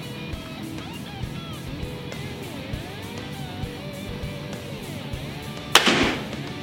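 A crossbow with an anti-dry-fire bolt sensor shooting a bolt: one sharp, loud snap near the end with a short, decaying twang, after a quiet stretch holding a few faint clicks.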